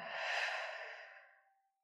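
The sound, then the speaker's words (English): A single deep breath is exhaled in a smooth, soft, breathy rush that swells briefly and then fades away, heard alone. “Take a deep breath in one more time”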